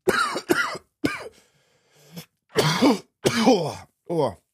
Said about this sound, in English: sorry, just doing a performative cough there, just to show you how ill I still am.